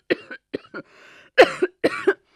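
A man coughs hard from the black exhaust smoke of a large vehicle's engine: a series of harsh, raspy coughs, a few short ones first, then two louder, longer bursts.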